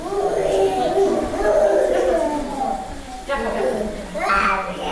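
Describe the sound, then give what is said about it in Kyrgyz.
A young child sick with flu and a fever that will not go down cries in an infectious-disease hospital. Loud, wavering, high-pitched wails and sobs continue throughout, with a brief dip near the middle. “Бул ыйлап жаткан бала сасык тумоолоп, дене табы түшпөй, баш калаадагы жугуштуу оорулардын ооруканасына түшкөн жүздөгөн наристелердин бирөөсү эле.”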